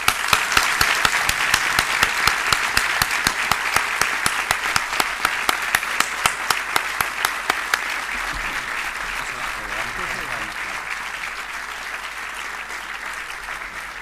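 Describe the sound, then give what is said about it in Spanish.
Audience applause at a charity concert: dense, steady clapping from a crowd that continues evenly for about fourteen seconds, easing only slightly toward the end. “muchas gracias a todo el mundo. Sinceramente, muchas gracias y nos merecemos a todos un aplauso y más a ustedes.”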